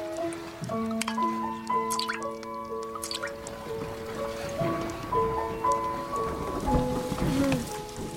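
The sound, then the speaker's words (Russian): Rain dripping and pattering as a thunderstorm begins at night on a riverbank, steady small drips blended with sustained musical tones. “Начинается гроза.”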